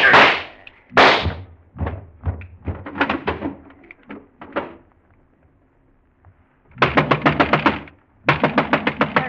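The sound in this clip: Gunshots ring out in a radio drama: a few sharp, loud cracks, then scattered quieter bursts. After a short lull come two rapid volleys of many shots each.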